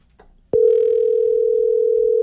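Steady telephone dial tone sounds while calling a contest winner. After a brief faint rustle it switches on abruptly and holds one constant pitch at an even, fairly loud level to the end.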